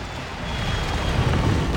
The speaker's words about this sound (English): Our chopper's taken enemy fire. It's going down. Oh no.